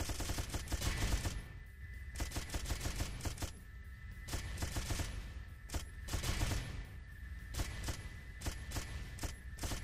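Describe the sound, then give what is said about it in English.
Rapid gunfire from a video game as the player shoots at incoming rockets: dense, loud bursts of shots run almost without pause for the whole stretch, with no talk over them. “This is fun. Shooting at rockets. They want to kill me.”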